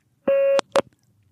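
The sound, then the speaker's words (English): Answering machine beep: a single steady mid-pitched tone lasting about a third of a second, followed shortly by one brief, sharp burst of sound, with quiet before and after. “Now, don't forget to wait for the beep.”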